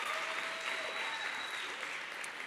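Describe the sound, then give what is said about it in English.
An audience applauds during a live talk: dense, steady clapping that keeps an even level for the whole stretch and sounds fairly faint, with no speech over it. “Don't clap for me.”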